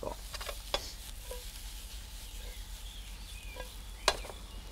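Steady, faint sizzle of a frying pan while dusted flour is stirred into the food, with a couple of sharp utensil clicks against the pan.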